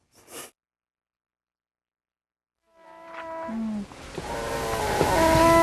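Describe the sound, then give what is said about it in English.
A foil packet rips open as a mother prepares to feed a malnourished baby: one short, sharp tearing burst, followed by silence before a low tonal background swells in. “A mother tears open a foil packet and puts it to the lips of a painfully thin baby.”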